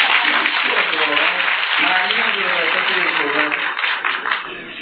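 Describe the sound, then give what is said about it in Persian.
Audience applause, a steady wash of many hands clapping that holds at an even level for about five seconds, with voices faintly mixed into the crowd noise. “حالا یه دست براش بزنید دلش خوش بزنید.”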